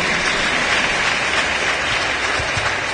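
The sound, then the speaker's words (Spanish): Loud, unbroken applause from a crowd at a religious gathering, an even, dense rush of clapping lasting the whole clip. “Hagamos un fuerte aplauso”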